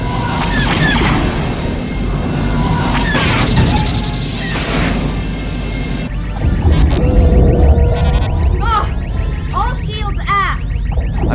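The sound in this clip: Loud crashing impacts and booms as a starship is hit by TIE fighter fire during a space battle, a dense continuous barrage with heavier blasts in the second half and high whistling sweeps cutting through.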